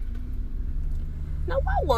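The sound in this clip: Low, steady engine rumble of a car pulling up alongside, a continuous droning hum that holds throughout, with a voice briefly speaking near the end.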